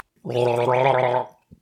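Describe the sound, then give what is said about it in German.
Someone takes a gulp of a drink with a gurgling, bubbling sound from the throat. It is a single loud voiced burst lasting about a second, heard alone, followed by a faint short click. “Weil ich brauche noch einen Schluck.”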